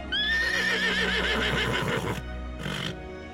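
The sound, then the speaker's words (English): A horse neighing in a stable in the southwest of England as it settles into new surroundings: a loud, long whinny with shaky, wavering pitch, then a shorter second call. “there was a horse making all of these sounds as he settled into his new surroundings”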